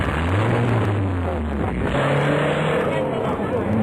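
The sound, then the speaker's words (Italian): Racing cars from the first 1927 Mille Miglia road race roar past, their engines droning in a loud, continuous, rough old recording with a low engine tone throughout. “abbiamo trovato un prezioso audio per farvi sentire il rombo dei motori della prima edizione, quella del 27. Pare di vederli sfrecciare davanti ai nostri occhi quei bolidi.”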